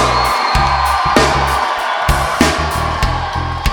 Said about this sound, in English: You know, this is a pretty big crowd for us, and we weren't sure we were gonna be able to fill up a tent of this size, so we wanna thank you for coming out.